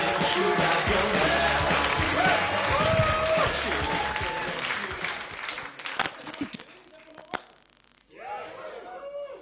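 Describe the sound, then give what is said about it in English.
An audience at a live comedy show claps, whoops and cheers as a comedian is welcomed to the stage. The dense, loud noise holds for about six seconds, then thins out, and a voice begins speaking. “Start clapping, whooping, cheering, and welcome to the stage”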